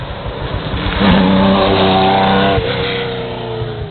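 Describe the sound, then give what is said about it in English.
A Porsche Carrera race car passes at speed on a damp road circuit strewn with leaf litter, giving a loud, continuous engine roar. Its pitch climbs, holds, then drops sharply as it goes by. “But in the meanwhile, just another Porsche for a change.”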